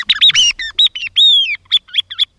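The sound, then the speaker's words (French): A bird sings a quick run of loud, high whistled chirps and short trills, some notes swooping up and down. A few longer sliding phrases stand among the clipped notes, with no other sound behind them. “Bon, on va se quitter avec cet oiseau coquin”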